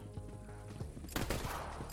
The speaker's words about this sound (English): Stop shooting. Critical. God, I hate the sights on this gun.